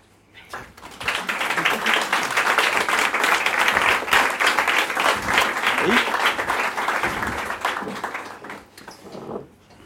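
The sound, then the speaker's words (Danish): Audience applause welcomes two guest performers, a dense, loud clapping that swells quickly, holds steady for several seconds and then tapers off near the end. “Så lad os bare byde dem pænt velkommen og indenfor.”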